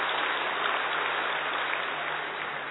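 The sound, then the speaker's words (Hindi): An audience at a religious discourse applauds in an even, dense wash of clapping that holds steady at a fairly loud level for nearly three seconds, with no talk. “तालियां बजाओ जरा एक बार अच्छे तरह से”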